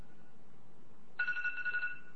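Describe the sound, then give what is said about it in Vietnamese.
A mobile phone rings partway through, its electronic tone pulsing rapidly in a short, fairly faint burst. “Vì chờ một chút, không biết cái phone của ai mà nó kêu ác quá.”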